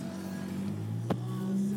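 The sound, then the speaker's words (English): A car driving along in traffic, heard as a faint, steady low engine and road hum with a soft whooshing layer and one brief sharp click partway through. “So, we are still driving along. Ooh, but we're getting close. And traffic's kind of sucking.”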